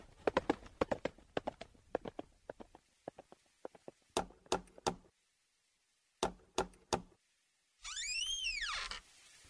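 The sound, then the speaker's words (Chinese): Horse hooves clip-clop as a rider gallops off, first in a rapid flurry of sharp knocks, then in sparser clusters of strikes separated by silent gaps, ending with a loud, high, arching tone. “快把马给我！走了，驾！”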